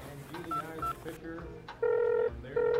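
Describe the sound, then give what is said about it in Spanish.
Telephone tones before a call: two short beeps, then two longer steady tones over a busy background. “Solo hago una llamada rápidamente y ya estaré listo.”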